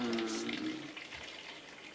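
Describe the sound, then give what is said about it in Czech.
Water is poured in to dilute a product concentrate, a faint soft gushing splash that tapers off over about two seconds. “Doleju vodou, tak se mi vlastně ta koncentrace naředí jak toho výrobku,”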